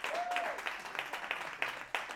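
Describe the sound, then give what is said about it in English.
Standing ovation applause from a church audience, a soft, dense patter of many hands clapping steadily for about two seconds, with a few louder bursts standing out near the end. “Woo. There it is. Woo. Jesus got a standing ovation. I love it.”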